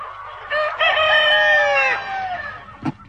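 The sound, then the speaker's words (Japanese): Voices imitate a rooster crowing in a game round, one long, loud, strained cock-a-doodle-doo with wavering harmonics lasting about two seconds, then a brief sharp burst near the end. “これはね、第3回戦のお題。鶏。”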